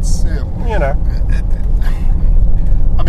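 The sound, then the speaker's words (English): Low, rumbling engine note from a BMW M SUV, a dense growl that carries steadily under people talking throughout. “It's actually quite a raspy sound. It's like a racing car. Cool. And it is very cool. As it should be. It's an M car, after all. And it plays both roles quite well. It can do that noise, but then if you drive it gently, it's actually quite docile.”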